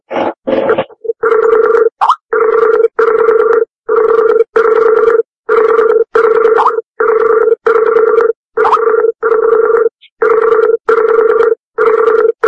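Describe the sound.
A telephone rings loud and alone, in a long steady series of buzzy, tonal pulses separated by short, regular gaps, with no talk.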